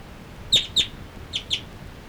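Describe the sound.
Two birds call while flying from perch to perch, giving four short high chirps in two pairs, the first pair louder and the second softer, over a faint low background hiss.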